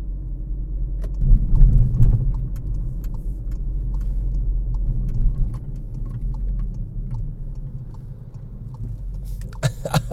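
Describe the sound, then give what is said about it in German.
Low, steady rumble of a large Mercedes SUV driving, swelling briefly near the start before settling into a continuous engine and road drone, with no talk over it. “die Olle in ihrem dicken Mercedes-SUV, die kann kaum übers Lenkrad gucken.”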